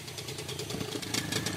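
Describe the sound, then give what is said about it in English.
An outboard motor on a long, skinny dugout canoe idles on an Amazon river with a low, rhythmic putter. The faint engine keeps an even pulse throughout, with no voices. “Two guys are waiting for us in a long, skinny dugout with an outboard on the back.”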